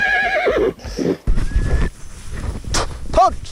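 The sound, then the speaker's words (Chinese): A horse neighs with a long, quavering whinny at the start and a shorter one near the end, during a ride herding sheep toward autumn pasture in Subei County, Gansu; scuffing, thumping and wind-like noise fill the gaps. “记者和布克一同骑马，赶着羊群向秋季牧场进发。”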